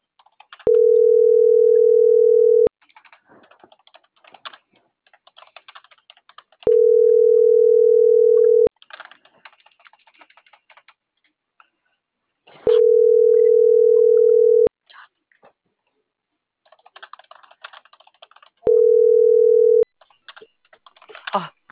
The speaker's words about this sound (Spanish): Estoy marcando, pero ya no me contesta.